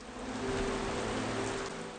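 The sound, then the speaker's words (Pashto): Steady rain falls near a bird's nest as a constant, soft, even hiss with no distinct drops standing out. “باران لا هم دوام لري”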